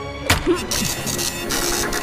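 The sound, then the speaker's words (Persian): Mechanical whir and clicking of a printer running, with a sharp click near the start followed by a steady buzzing hum. “فکر کنم اینم صدای پرینتر من بود.”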